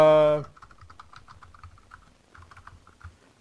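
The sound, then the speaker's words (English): Typing on a computer keyboard: many quick, soft, uneven clicks and taps run steadily for about three seconds after a short loud burst at the start. “Let me put these here for you so you can listen to me type while I'm doing this.”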